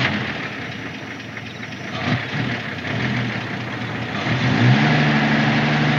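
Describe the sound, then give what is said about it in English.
A tow truck engine runs with a steady low, rough rumble that grows louder and revs up slightly toward the end, heard alone without any voices. “The fella gets back into the tow truck and cranks it up.”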